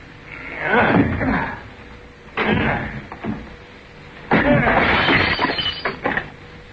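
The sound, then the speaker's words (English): A locked wooden door is forced open by shoulder charges in a radio drama: three heavy thuds spaced a second or two apart, the last one a loud splintering crash with rattling debris. “None of these keys seem to fit the lock. There's no sound from inside. I trust we're not too late. Now, Watson, let's have the aid of your shoulder and we shall see.”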